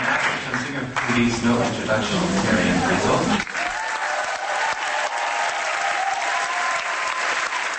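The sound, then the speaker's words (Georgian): Loud, sustained applause as journalists give British musician and actress Marianne Faithfull an ovation at the Berlinale. A voice talks over the dense clapping for the first few seconds, then the applause continues alone. “აი ასეთი ოვაციები მოუწყვეს ჟურნალისტებმა ბრიტანელ მუსიკოსსა და მსახიობს მარიან ფაითფულს, რომელმაც მთავარი როლი შეასრულა ბრიტანულ ბელგიურ ფილმში ირინა პალმი.”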